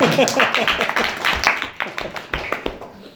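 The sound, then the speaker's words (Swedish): An audience in a church meeting applauding, a brisk spatter of many sharp claps that swells and dips in uneven bursts across the whole stretch. “Nu får ni lov att applådera till Jesus.”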